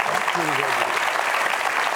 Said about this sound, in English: You know, the audience didn't know what they were clapping about.